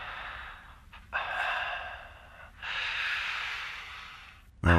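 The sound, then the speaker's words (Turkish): A caller breathes over a phone line, giving a few long, airy, hissing breaths with brief pauses between them. They are faint and heard alone, followed by a louder burst at the very end. “Nefes sesleri geliyor.”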